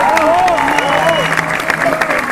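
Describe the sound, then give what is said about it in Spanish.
A crowd applauds and cheers at an Argentine political campaign speech, producing steady, thick clapping with voices mixed in. “A Máximo Paz, a los compañeros del Frente Renovador, para los cuales pido un aplauso,”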